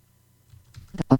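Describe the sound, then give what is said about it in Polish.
Typing a message on a computer keyboard: after a short near-silent pause, a brief cluster of a few quick key clicks sounds in the last half-second. “I teraz chcę wpisać jakąś wiadomość, więc znowu sobie klikam.”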